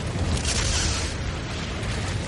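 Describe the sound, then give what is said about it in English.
A volcanic hypereruption gives a dense, continuous roar of explosive force, loud and broad with a heavy low rumble that holds steady without distinct separate blasts. “As it shoots molten rock skyward, the hypereruption produces an explosive release of energy”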